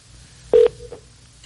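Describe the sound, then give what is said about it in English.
A telephone tone sounds as a number is dialed to call a contest winner: one loud, bright electronic beep, then a fainter, thinner tone trailing off, with no talk. “I got the number all lined up. Let's make a phone call and let's get ourselves a winner here.”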